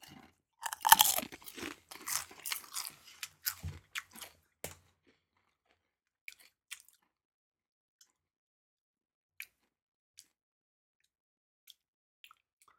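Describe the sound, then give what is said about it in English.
Someone bites into a red chip with loud, crisp crunching: a rapid cluster of crunches over about four seconds, then a few faint, scattered chewing clicks in near silence. “All right, going for the chip.”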